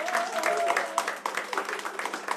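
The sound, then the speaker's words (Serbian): Applause from the audience at a live tavern-style music evening as the band members are introduced: fairly quiet clapping with uneven bursts, and voices mixed in. “jedan veliki aplauz”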